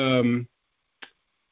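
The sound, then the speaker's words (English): A single short click of a timer being started, coming just after a brief burst of voice, then silence. “Oh, let me start the timer.”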